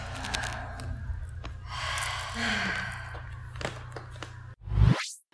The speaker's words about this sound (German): versuch mal so tief einzuatmen, wie du kannst, dass dein kompletter Körper mit Luft gefüllt ist. Und lass alles wieder raus.